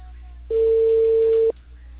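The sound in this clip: A single ringback tone on an outgoing telephone call, one steady, pure mid-pitched beep lasting about a second that starts and stops abruptly over a low line hum.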